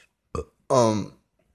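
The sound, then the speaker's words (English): A small human burp: a tiny, clipped burst, a brief silence, then a longer, throaty, voiced belch that fades out, with no other sound around it. “Sorry, I just burped a little bit”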